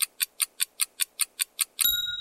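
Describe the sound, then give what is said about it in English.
Ticking of a countdown clock in a guessing game: nine fast, evenly spaced crisp ticks, then a bright ringing bell tone that sustains and fades to end the count. “Here's the clock.”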